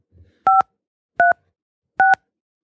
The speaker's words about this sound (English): Please enter your show number.